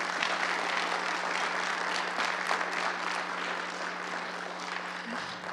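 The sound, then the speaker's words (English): Audience applause at a gathering that closes with prayer: dense, steady clapping that stays loud and fairly even for the whole stretch, with no voices standing out. “Can we give them another round of applause?”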